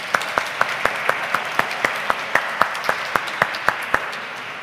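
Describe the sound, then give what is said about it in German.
Applause from a church audience welcoming a new member at a baptism service: many sharp, evenly spaced claps in a steady rhythm, moderately loud throughout. “Wir können einmal applaudieren für unser neues Gemeindemitglied.”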